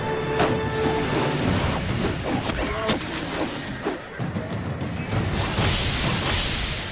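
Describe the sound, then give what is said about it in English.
Crashes and booms as trolls blast open a front gate in a video game, with dense clattering impacts and whooshing debris over a continuous rumbling backdrop. “The trolls trigger the animation where the front gate gets blasted open.”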